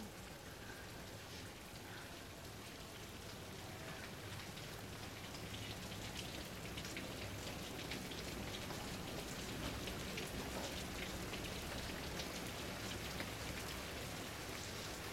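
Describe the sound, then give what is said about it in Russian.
Steady rain taps on a windowsill at night, a dense, continuous patter that stays even throughout and grows slightly louder after the first few seconds, with no voices. “По подоконнику стучит дождь.”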